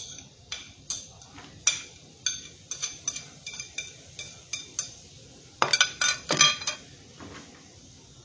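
Utensils clink and tap against a cooking pan as tomato and onion are added. Many irregular, sharp knocks, mostly light, with a louder cluster of clatter near the end.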